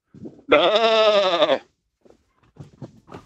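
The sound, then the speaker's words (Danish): A person imitates a sheep bleating, giving one loud, sustained, wavering bleat about a second long, then a few quiet, brief voice sounds. “Vi er enige om, at det var et får. Det er korrekt. Yes, det kan man tydeligt høre.”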